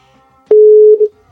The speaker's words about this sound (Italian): Io sto chiamando intanto